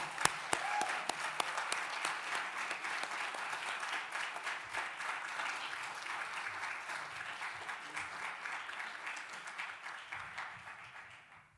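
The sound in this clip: Audience applause welcoming a speaker onto the stage at a community gathering: dense, steady clapping that starts loud with a few sharp claps and holds for about eleven seconds before tapering off at the end.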